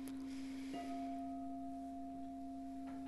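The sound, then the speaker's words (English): Singing bowls ringing during a guided meditation: a steady, sustained low hum joined by a higher overtone that enters under a second in and holds, quiet and without talk. “And just begin to focus on the tones of the bowls.”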